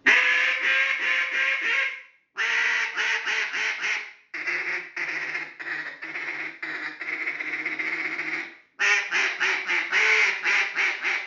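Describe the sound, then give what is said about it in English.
A duck call blown in a high ball call gives loud, rapid runs of quacks in four sustained bursts separated by short pauses. “Everybody's blowing them calls. They're hitting them with the high ball when they see them.”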